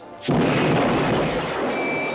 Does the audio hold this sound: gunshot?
yes